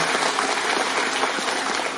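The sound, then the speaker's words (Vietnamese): An audience gives a round of applause, a dense and even wash of many hands clapping at a steady level. “Các vị nên cho một tràng pháo tay.”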